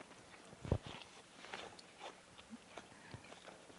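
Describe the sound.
A crisp bite into an apple makes one sharp crunch, followed by several quieter crunchy chewing sounds, all faint and unaccompanied by talk.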